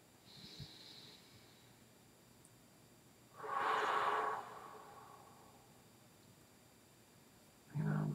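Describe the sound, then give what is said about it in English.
A single deep breath is drawn in, about a second long and otherwise quiet. It rises out of near silence, and a short, fainter breath follows near the end. “Take a deep breath.”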